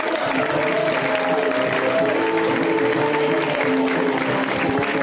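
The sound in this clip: An audience claps in steady, dense applause for a performer just introduced on stage, a continuous even wash of hand claps with no break.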